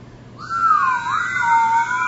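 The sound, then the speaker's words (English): A group whistles together, holding sustained tones at several different pitches that begin after a short quiet moment and carry on to the end, with the wavering lines dipping and rising a little. “And then whistling, so hold the whistle.”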